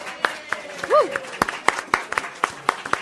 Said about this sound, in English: How about a hand for my friend William?